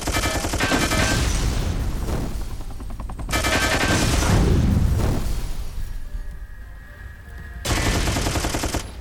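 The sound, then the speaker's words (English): Machine-gun fire in a strategy video game rattles in loud, rapid sustained bursts, three long volleys of dense gunfire separated by a brief quieter lull before the final burst. “Machine gun.”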